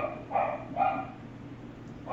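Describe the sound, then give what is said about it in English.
A dog barks outside the house with a few short, muffled barks. Two come close together, then a quiet gap, then a sharper bark at the very end. “Yeah, technically you can hear that dog outside.”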